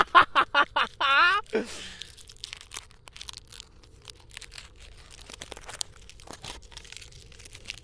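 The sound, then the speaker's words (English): Foil wrapper of a Ferrero chocolate crinkles as it is unwrapped, making many small crackles and rustles. A few short, squeaky, honking bursts come first. “I'm getting my Ferrero, guys. Oh, yeah, okay. So if you hear crustling, yeah, that's what that is.”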